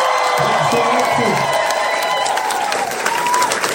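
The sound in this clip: Audience applause and cheering, thick continuous clapping mixed with whoops, while a voice talks over it near the start.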